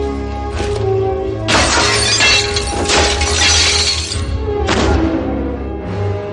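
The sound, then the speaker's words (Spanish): Glass shattering as an elbow smashes the front of a fire-axe case: a loud, sustained crash of breaking glass, then a second, shorter burst of shards, over a low rumble. “rompe el cristal con el codo, saca el hacha”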